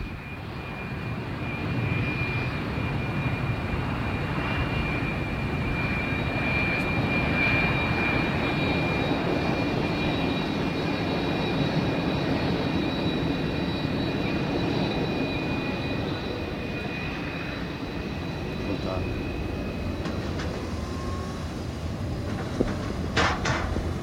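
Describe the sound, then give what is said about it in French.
Aircraft engine noise at a small airport makes a steady, broad roar with a faint tonal whine that holds for over twenty seconds, with a few light clicks near the end and no talking. “C'est un tout petit aéroport, il n'y a pas beaucoup d'avions, surtout des voitures.”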